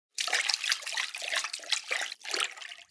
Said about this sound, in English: Can you swim a little closer?